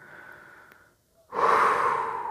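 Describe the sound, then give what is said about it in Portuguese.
Slow breathing during a relaxation exercise: a soft, airy breath, a short silent pause, then a louder, long breathy rush of air that carries on to the end. “Inspira e expira.”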